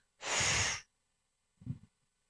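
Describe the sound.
A deep exhale during a guided breathing exercise: one long, loud, airy rush of breath lasting about half a second, followed by a much shorter, softer breath sound.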